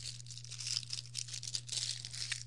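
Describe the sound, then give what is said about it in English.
Plastic packaging around a durian custard is peeled back, giving a steady run of crinkly, tearing rustles with many small bursts over a low hum. “Okay, it's all wrapped in this little packaging material. Just peel it back.”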